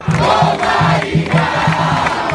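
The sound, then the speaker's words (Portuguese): Organized football supporters in an uncovered section of a Brazilian stadium's stands, loud massed chanting and cheering over a steady, regular rhythmic pulse. “E a torcida organizada fez bonito. Ocupou parte da arquibancada descoberta e animou quem estava no estádio.”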